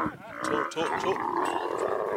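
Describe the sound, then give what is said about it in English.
Camels grunt and groan in a continuous, rough, throaty rumble as a herder rounds them up after a long, hot day of carrying a mobile library tent; the guttural moaning stays loud and unbroken throughout. “Camels, like cars and trucks, are supposed to make noise.”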